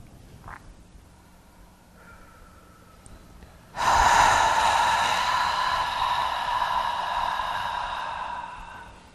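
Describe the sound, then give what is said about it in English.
A deep cleansing breath during a relaxation exercise: a short intake of air, a quiet pause, then a long, loud, full exhale that fades slowly over several seconds. “take two more of these deep cleansing breaths at your own pace. Breathe in and hold, and then a complete exhale.”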